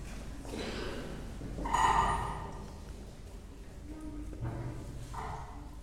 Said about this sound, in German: Zum Schlussgebet bitte ich Sie noch einmal aufzustehen, wenn es gut geht.